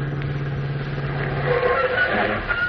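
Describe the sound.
A car arrives, its engine a steady low rumble that shifts partway through and keeps going to the end.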